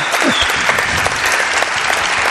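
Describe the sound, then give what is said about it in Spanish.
An audience applauds a guest at a live event, with dense, even clapping that stays loud and steady from start to finish. “Pido un aplauso para él.”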